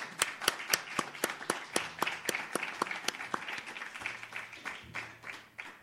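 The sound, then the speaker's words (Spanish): An audience applauds a performer on a stage, clapping together in a quick, even rhythm. The sharp claps are fairly faint and grow less distinct as they go on. “Un fuerte aplauso para Gaby Pina.”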